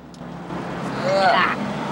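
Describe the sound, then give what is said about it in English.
A truck cruises along a freeway on the outskirts of a large city with a steady, low engine and road rumble. A voice is briefly heard over it. “Now, in the hazy sunshine of late afternoon, Lincoln's truck cruises along a freeway on the outskirts of a large city.”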